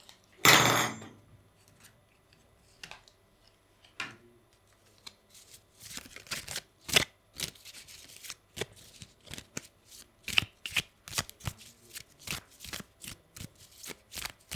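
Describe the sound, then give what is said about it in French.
A deck of playing cards is shuffled: an opening loud burst of riffling, then many crisp snaps and clicks of cards striking each other in an irregular rhythm, moderately quiet with no voices. “Des cartes.”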